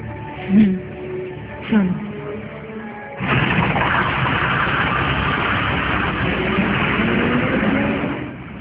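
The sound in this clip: A bus engine idles: after a quieter opening, a steady, loud mechanical rumble starts abruptly and holds evenly for about five seconds before easing slightly at the end.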